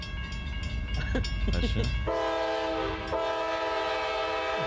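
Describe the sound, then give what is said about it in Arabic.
A train passes with a rumbling, noisy stretch, then its horn blares in a loud, sustained tone that briefly cuts out and resumes, holding steady to the end. “سمعت صوت القطار؟”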